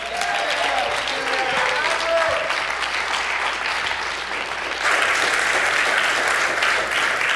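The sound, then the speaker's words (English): An audience claps to welcome a speaker to the front: dense, steady applause throughout, growing a little louder and brighter in the last few seconds. “Why don't you give him a big hand?”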